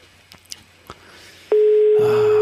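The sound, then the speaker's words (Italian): A telephone sounds as a steady electronic tone, loud and fixed in pitch. It begins after a few soft clicks and runs unbroken to the end. “Oh mamma, squilla un telefono. Quando squilla il telefono, il politico trema.”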